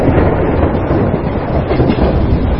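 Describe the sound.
Train pulling out of a station, a loud, continuous rumbling roar with a dense rattling texture and no separate beats standing out.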